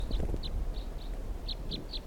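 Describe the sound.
Birds call up in the trees with about seven short, high chirps in quick, uneven succession over low rumbling background noise.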